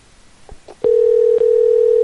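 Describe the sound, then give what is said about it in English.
A steady electronic telephone ringing tone sounds while a call waits to be answered. It follows a few soft clicks and holds one unbroken pitch to the end, loud and alone. “It can just go. It can just ring forever. They could pick up.”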